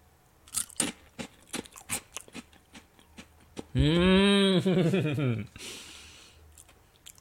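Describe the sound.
Crunchy food dipped in mayonnaise being bitten and chewed, with many sharp, irregular crunches, followed by a drawn-out voiced hum.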